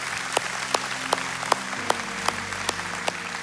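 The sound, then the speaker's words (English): An audience claps in a church setting. The claps are sharp and land at a steady, even rhythm over a low background hum, with no voices. “I'm glad you're clapping, because that is you.”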